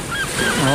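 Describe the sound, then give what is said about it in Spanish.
Seagull squawks ring out over a steady wash of sea waves, a few short harsh calls rising above the continuous surf noise, with no talk. “Graznido de gaviota.”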